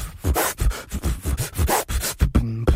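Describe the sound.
A human beatboxer imitates turntable scratching with his voice, producing rapid, rhythmic, scratchy bursts in many quick back-and-forth strokes that end in a brief buzzy tone.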